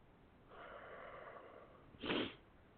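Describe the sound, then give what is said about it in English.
A person yawning, a long, drawn-out, breathy groan that trails off, followed by a short, sharper rush of air. “Oh, come on! I can't stop yawning now.”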